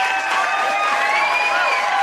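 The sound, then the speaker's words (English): A live studio audience applauds with dense, continuous clapping and cheering that holds steady and loud for the whole brief moment. “yes, we have an audience with us tonight. Bust in from Chicago, New York.”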